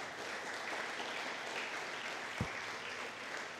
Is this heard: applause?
yes